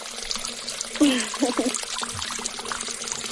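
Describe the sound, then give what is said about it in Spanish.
Water runs from a tap in a steady, soft, splashing hiss that lasts throughout. A slightly louder gush comes early on, and faint voice sounds briefly rise over the flow. “Yo sí estoy abriendo, espérame, estoy abriendo el agua.”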